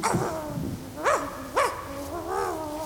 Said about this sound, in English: Do Fedorians make sounds like that? That's no Fedorian. That's Miss Sophie. What are you doing with my dog friend, you big green bullies? A dog? An Earth dog?